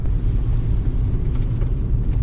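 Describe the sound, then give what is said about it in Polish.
A car driving, heard as a steady, loud low-frequency engine and road rumble that stays even throughout, with no voices. “Będziemy jechali teraz do leśnictwa Dąbrówno.”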